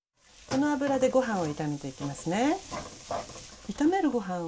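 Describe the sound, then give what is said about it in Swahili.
Cooking oil sizzles at the side of a pan holding vegetables, giving a steady frying hiss with stirring, fairly soft and continuous through the whole stretch. “Viambato vikisha changanyikana pamoja, ongeza kijiko kimoja kikubwa cha mafuta ya kupikia pembeni mwa sufuria.”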